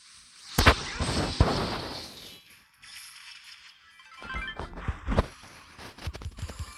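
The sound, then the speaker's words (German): Video game gunfire with shots fired through a wall: sharp cracking bursts, a couple of loud ones near the start, then a quieter gap and a cluster of several more cracks toward the end. “Wieso kann der durch die Wand schießen?”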